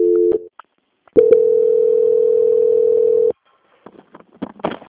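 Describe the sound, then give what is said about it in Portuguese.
A telephone call transfer tone: a brief low steady beep, a pause, then a longer unbroken tone of about two seconds, followed by faint clicks and line noise. “peço que a senhora aguarde em linha, que eu vou transferir para um controle de qualidade que dará continuidade na sua contratação”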